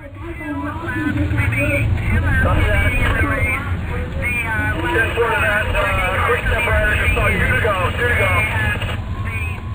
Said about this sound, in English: What you're listening to here are the sounds inside the race caravan, which is where I spent my day today.